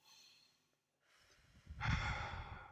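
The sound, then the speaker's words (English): Slow, deep breathing during a guided calming exercise: a soft, airy breath drawn in through the nose, a brief pause, then a longer, fuller exhale out through the mouth, heard alone with no talk. “let's just take one deep breath together and just in through the nose, out through the mouth.”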